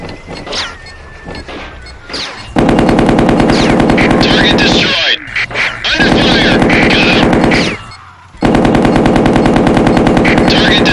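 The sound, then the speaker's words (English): Machine gun fire in a video game: a few sparse shots give way to long, rapid, sustained bursts, loud and dense, broken by brief gaps. “So yeah, basically you have to use the machine gun.”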